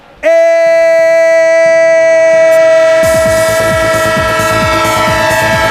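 A train sounds a long, loud, steady horn. About halfway through, a rapid rhythmic clatter of wheels on the rails joins it and continues under the horn to the end.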